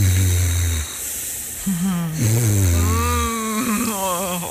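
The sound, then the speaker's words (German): A partner snoring in bed, with loud, low, rasping snores and breathy hisses drawn out over a few seconds in an uneven rhythm. “Das klingt nach einer schlaflosen Nacht, ne? Auf jeden Fall, wenn man daneben liegt. Ja, also das ist wirklich unangenehm, wenn der Partner schnarcht.”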